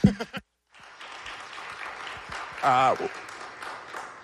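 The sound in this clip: An audience at a panel discussion applauds with steady, moderate clapping. It begins after a brief spoken phrase and a short pause, and a voice briefly rises above it partway through.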